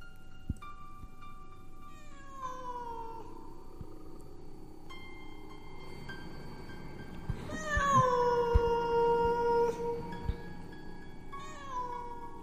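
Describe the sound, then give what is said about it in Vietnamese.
A large black cat meows in a graveyard: several drawn-out, wavering cries with falling pitch, faint at first and loudest in a long wail near the middle, then a final shorter call. “Xung quanh đây văng vẳng có tiếng con mèo kêu lên đâu đó, nghe đến rợn cả người.”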